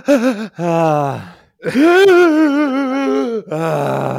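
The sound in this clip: A voice imitating a grandmother's drawn-out wind-up to a sneeze: a few long, wavering, groaning and gasping vocal sounds separated by short breaks, loud and alone, without the final sneeze.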